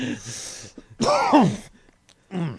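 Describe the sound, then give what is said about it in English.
Harsh coughing and throat-clearing sounds from someone with something caught in the throat come in three separate bursts. The middle burst is the longest and most strained and sounds voiced, with brief quiet gaps between the bursts and no speech. “Yeah, that was a cough and then a swallow back.”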